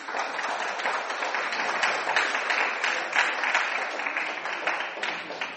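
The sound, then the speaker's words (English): Sustained audience applause at a film festival award announcement, dense steady clapping at a moderately loud, even level with no speech over it. “Could we have a round of applause for her?”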